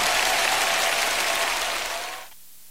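Audience applause, a dense and steady wash of many hands clapping that tapers off and stops shortly before the end.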